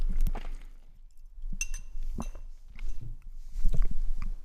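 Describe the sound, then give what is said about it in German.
A sip taken from a drinking glass, with a few light glassy clinks and soft mouth noises, fairly faint and with no talk. “Nehme ich mal noch einen Schluck, vielleicht kommst du dann wieder.”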